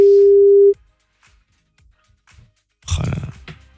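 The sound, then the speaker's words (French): A telephone dial tone sounds while a call is being placed: a loud, steady single-pitch tone that lasts under a second and then cuts off, leaving near quiet with faint clicks and a brief louder burst of noise near the end. “Allez, on va essayer d'appeler, on va tenter le coup.”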